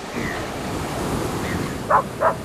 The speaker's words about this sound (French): Ça serait quand même dommage de ne pas aller faire un tour et puis qu'on qu'on termine cet entretien en étant en bord de mer, dans ton élément Au plus proche de la mer.